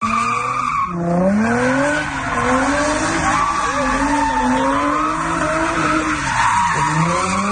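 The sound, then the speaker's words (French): Cars skid with squealing tires during illegal street racing maneuvers in an industrial district, a loud continuous screech that wavers up and down in pitch over roaring engines. “Ce que vous entendez, c'est ça a été pris la fin de semaine dernière, samedi dernier. Les policiers de Trois-Rivières ont empêché un rassemblement de 300 jeunes qui souhaitaient faire des manœuvres ou des courses automobiles dans le quartier industriel.”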